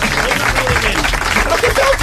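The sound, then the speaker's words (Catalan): An audience applauds a grandmother, a dense and steady wash of many hands clapping at full volume, with crowd voices mixed into the clapping. “Un aplaudiment per la iaia Angeleta.”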